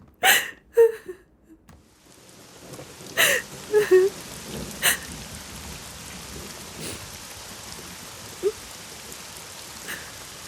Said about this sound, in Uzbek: Yomg'irni yaxshi ko'raman. Yomg'irda ko'z yoshlaring bilinmaydi.